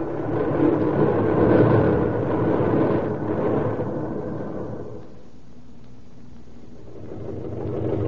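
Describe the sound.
A freight train starts to move with a low, heavy rumble. The rumble is loud at first, eases into a quieter stretch, then swells slightly again at the end, with no voices.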